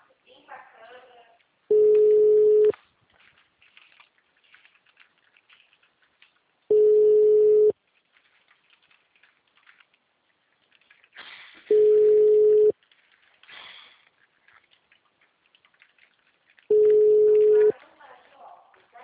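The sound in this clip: Ringback tone on an outgoing telephone call, four steady beeps of about one second each at a low-mid pitch, evenly spaced roughly five seconds apart, with a faint murmur in the gaps.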